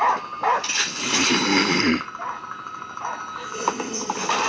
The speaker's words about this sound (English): Don't kill the dog. Don't kill the dog.